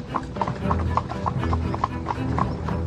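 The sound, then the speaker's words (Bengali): Hooves of a horse pulling a carriage setting off toward London clip-clop in a brisk, steady rhythm: many sharp, hollow strikes over a continuous low rumble. “আমি উঠে বসতেই Holmes মারল লাগামে এক টান এবং আমাদের গাড়ি ছুটে চলল লন্ডনের দিকে।”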